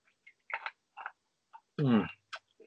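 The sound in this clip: Soft clicks and taps of nuts being handled for ASMR, a few scattered light ticks with a brief hummed voice between them.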